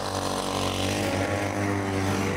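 A petrol engine drives a homemade motorised e-bike, giving a steady, buzzing drone that holds an even pitch and loudness for the whole short stretch, with no voices.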